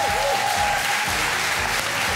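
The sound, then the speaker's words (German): Roaring applause from a game show studio audience for a contestant accepting a cash offer: dense, steady clapping that stays loud and even throughout, with no voices standing out. “Dann gibt es einen tosenden Applaus für Joel aus Hamburg”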